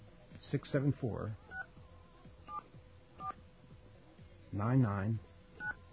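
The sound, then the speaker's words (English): Touch-tone keypad beeps dialing a telephone test number for a new area code: a few short, evenly pitched tones spaced apart, with a person talking before and between them. “You have a dial tone? Okay. Let's see if our switch is set up to handle this.”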